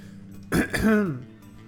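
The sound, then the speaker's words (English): A person clears their throat: two quick, rough bursts, then a short, low, voiced rumble that trails away into quiet. “probably should clear my throat before I hit the play on tape button.”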